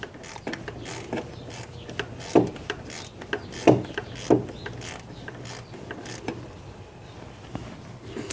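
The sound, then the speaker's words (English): A ratchet wrench clicks on a very loose belt tensioner bolt on a car, with many faint scraping clicks and a few louder metallic clanks in the middle. “The belt tensioner is very loose. Let me see if the bolt is actually out.”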